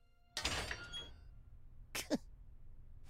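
A metal grate rattled and then pushed so it swings open: a faint, noisy rattling burst lasting about half a second, a pause, then a second shorter burst as the grate gives way.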